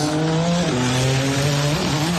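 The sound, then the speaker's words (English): IndyCar race cars speeding past during a 250-mile Grand Prix through the streets of Washington, D.C.; loud, continuous engine whine whose pitch dips a few times. “Freedom 250 Grand Prix taking place in Washington, D.C. this afternoon, a 250-mile IndyCar race through the nation's capital.”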